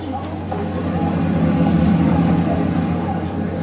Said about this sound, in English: Just gonna leave my car running on the street.